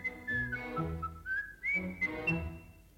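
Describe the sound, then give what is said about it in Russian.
A person whistles a bird-like trill: a clear, high whistled tone with wavering, gliding notes that flutter up and down, steady and fairly loud for about three seconds. “Как ты замечательно свистишь. Прямо птичья трель.”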